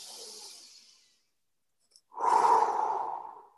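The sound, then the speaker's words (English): Deep breaths taken during a church service: two slow, soft breaths separated by a brief silent pause, the second longer and fuller than the first. “As we listen, take a few deep breaths.”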